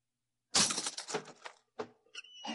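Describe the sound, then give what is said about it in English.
A door lock is smashed open: a loud cracking blow with splintering clatter, then a separate knock and a few smaller, sharp rattles and metallic clicks. “I'll have to smash the lock.”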